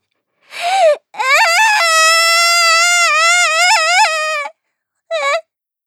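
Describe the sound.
A young child cries in three loud, high-pitched wailing bursts: a short cry, then a long quavering wail of about three seconds, then a brief final sob, with no other voices.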